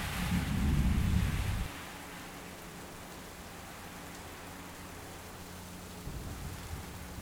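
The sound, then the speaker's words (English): Rain falls steadily during a storm in South Australia, a dense even hiss throughout, with a deep low rumble at the start that fades and then returns briefly near the end. “I am in South Australia at the moment and there is a beautiful storm. So you may hear the sounds in the background.”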